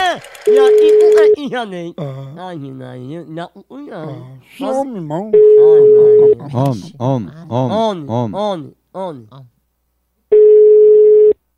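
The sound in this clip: A telephone rings with three long, steady electronic tones spaced at regular intervals, loud and flat in pitch, while a person's voice talks in the gaps between them.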